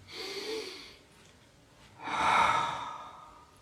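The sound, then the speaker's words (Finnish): Deep breathing during a guided relaxation, with two audible breaths and no talk. The second breath is louder and longer than the first. “Hengitän sisään.”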